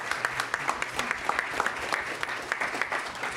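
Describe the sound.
Audience applause for a speaker at a talk event: steady, dense clapping from a crowd that holds at an even level throughout, with no voices over it.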